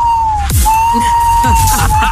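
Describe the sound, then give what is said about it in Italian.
Loud electronic siren that resembles submarine sonar: a steady high whine with a brief break, layered with several low, quick downward-swooping chirps. “Sembrava più un sonar. Sirena. I sonar dei sommergibili.”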